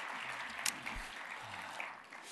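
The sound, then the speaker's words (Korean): Congregation applauding during a church service, a steady, dense wash of clapping that holds evenly for about two seconds before easing slightly at the end. “우리 다시 한번 큰 박수로 하나님께 영광 올려드리겠습니다”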